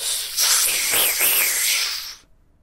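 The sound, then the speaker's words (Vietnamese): Loud, steady hissing of swirling yin-yang energy rising from a pool, a dense airy rush lasting about two seconds before cutting off abruptly. “Khi mà hấp lực ở trong cơ thể Lâm Động bạo phát thì âm dương nhị khí ở trong cái hồ lập tức rít lên”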